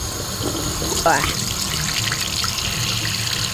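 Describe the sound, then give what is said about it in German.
Running tap water rinses out a drinking bottle that held a moldy strawberry milkshake. The water gushes and splashes steadily, with a brief rising tone early on as the bottle fills. “wir sollten so langsam mal die Trinkflasche von mir hier mit diesem schimmeligen Erdbeermilchshake mal wegräumen. Und am besten auch abspülen.”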